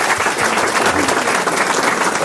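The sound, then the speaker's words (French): Applause from a studio audience at a televised quiz show: a short stretch of thick, continuous clapping at an even, lively level throughout. “On peut l'applaudir, mademoiselle.”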